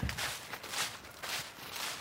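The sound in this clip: Faint footsteps of people walking outdoors toward an old former military airfield. A few soft, evenly spaced steps sit within a steady wash of background hiss.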